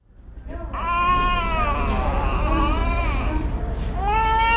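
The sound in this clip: A malnourished child cries in a small hospital room, a loud, sustained, strained wail with wavering pitch that breaks off briefly before a fresh cry begins.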